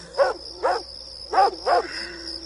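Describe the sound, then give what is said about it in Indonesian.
A neighbour's dog across the street barks four times in an uneven rhythm. The barks are clear and mid-pitched, over a steady high-pitched whine in the background. “aku dikagetkan oleh suara anjing tetangga depanku yang menggonggong mengagetkanku.”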